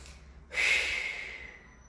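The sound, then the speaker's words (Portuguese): A long exhale lets breath out in one breathy, airy rush that starts suddenly, peaks at once, then fades gradually over more than a second. It is fairly soft and stands alone with no talk. “E quando eu solto, eu literalmente solto todo aquele ar que estava fazendo parte do meu corpo”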